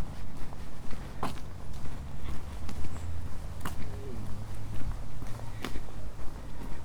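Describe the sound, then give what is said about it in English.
Steady footsteps of someone walking alongside Swanpool, whose banks are covered in vegetation. The treads form an even, unhurried rhythm of many soft thuds over a continuous outdoor background. “Must be close to Swanpool now. I'm now walking alongside Swanpool.”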